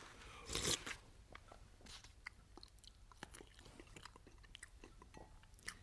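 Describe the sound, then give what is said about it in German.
Someone eating, with quiet, irregular crunches and biting clicks scattered throughout and one louder crunchy burst near the start. “Hör bloß mit des Gequassel auf. Lass mich essen.”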